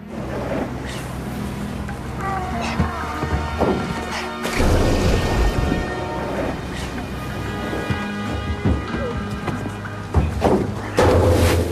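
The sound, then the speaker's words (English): Large metal barrels thrown overboard from a boat by three men at sea: irregular heavy clanks, thuds and crashing splashes over a steady background of water and wind noise. “On a boat, three men throw overboard several large metal barrels.”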